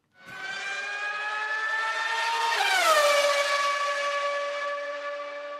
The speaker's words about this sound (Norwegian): men først en liten trudelutt